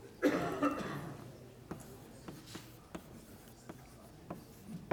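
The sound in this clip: Writing on a board during a lecture: a brief rougher burst at the start, then a series of faint, scattered strokes and taps spaced out over several seconds.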